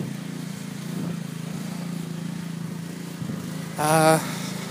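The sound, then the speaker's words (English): Pressure washer cleaning a vehicle, a steady droning motor hum that holds throughout, broken near the end by a short, louder tonal burst. “someone's power washing their vehicle.”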